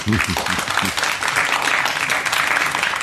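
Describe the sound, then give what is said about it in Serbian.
A studio audience applauds, a dense, even patter of many clapping hands that fills about two seconds after a brief voice at the start. “Došla je publika, publiko aplauz.”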